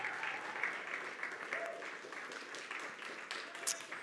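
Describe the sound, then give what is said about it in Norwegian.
A church audience applauding a worship leader, a faint, steady patter of many hands clapping with no clear pauses. “skal vi gi Mathias også en god klapp,”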